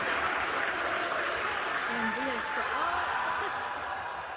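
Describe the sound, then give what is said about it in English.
SpaceX employees in mission control cheer and applaud a Starship landing. The steady, broad roar carries voices calling out over it and eases slightly toward the end. “Still, SpaceX employees cheered the mission's overall successes.”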